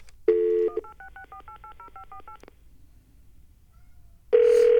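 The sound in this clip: Touch-tone keypad dialing a toll-free 866 number to reach a fax-back service: a brief steady tone, then a quick run of many short dual-pitched beeps, a quiet pause, and a loud steady tone at the end.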